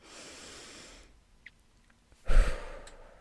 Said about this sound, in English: big breath, folks, with me again.